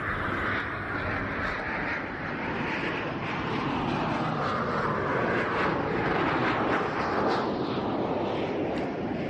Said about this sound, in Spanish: ¿Preparado? 3, 2, 1, despegamos.